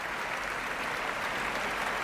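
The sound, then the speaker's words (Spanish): Applause from a standing audience giving an ovation to the Orquesta Nacional de España, a dense and steady wash of clapping that stays fairly faint throughout. “Grandes aplausos, gran ovación para la Orquesta Nacional de España, puesta en pie.”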